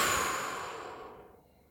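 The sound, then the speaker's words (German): A deep breath let out in one soft, airy exhale that starts fairly full and steadily fades away over under two seconds, with no talk over it. “Wir nehmen einfach mal einen tiefen Atemzug ein und lassen die Luft wieder raus.”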